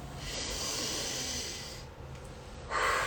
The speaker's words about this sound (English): I start with this deep breath